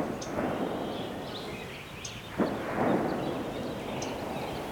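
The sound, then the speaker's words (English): A gunshot rings out in forested hills scattered with farms: one sharp report about halfway through, followed by a low rolling rumble. Faint bird chirps sound now and then over a steady outdoor hum. “And that's the sound of someone shooting guns.”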